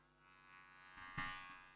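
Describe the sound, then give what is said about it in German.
A small, new travel electric shaver runs with a faint, steady buzzing hum, broken midway by a couple of short handling noises. “Von hier aus sieht aus wie Rasierapparat. Ja, ist Rasierapparat. Ach, da Rasierapparat. Ja, hier, ja. Ist neu.”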